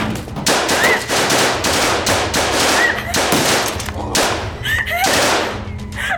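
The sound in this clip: Machine gun fire in a radio drama shootout: loud, dense and continuous rapid bursts of automatic shots over several seconds, with scattered sharper cracks.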